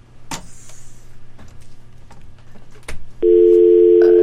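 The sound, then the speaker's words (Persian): Telephone dial tone after a call cuts off: a few faint clicks and taps, then a steady, continuous electronic tone starts and holds unbroken to the end. “تلفن آقای خادم مثل که قطع شد.”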